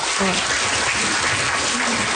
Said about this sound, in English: Round of applause for Christina